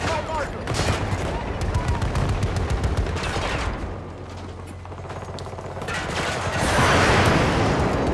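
Artillery barrage in a video game: a rapid, rattling string of sharp impacts and mechanical clatter, followed by a quieter lull and then a louder, rumbling swell of blasts near the end.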